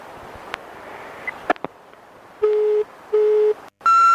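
Telephone tones from an unanswered call: two short, steady low tones in a row, then a higher, brighter tone, over a faint hiss.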